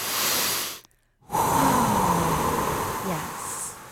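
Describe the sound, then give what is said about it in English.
Breathing during a guided calming exercise, in through the nose and out through the mouth: a noisy inhale, a short silent pause, then a long, loud, airy exhale. “Breathe with me. Three times in through the nose, out through the mouth.”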